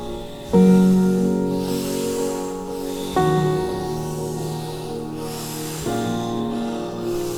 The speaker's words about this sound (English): Deep inhales.